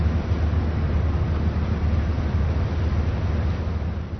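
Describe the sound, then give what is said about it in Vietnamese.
A grey metal Thai royal patrol boat idles its engine while moored at a pier inside a canal in Bangkok during flooding, giving a steady, loud low rumble with no talk. “Một chiếc tàu tuần của Hoàng gia Thái Lan đang nổ máy trên con kênh tại bến La Pearl ở Bangkok.”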